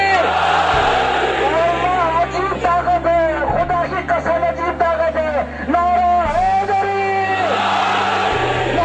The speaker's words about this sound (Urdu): دور دور تک اہل بیت اظہار علن کر کے نعرہ حیدر,